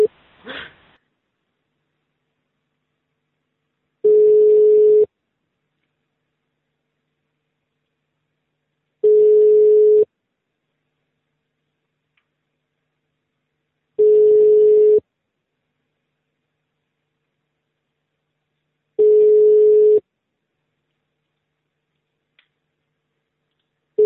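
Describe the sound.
A telephone line's ringing tone while a call is placed: four long steady beeps of a single mid-pitched tone, evenly spaced by several seconds of silence, with another beep just starting at the end.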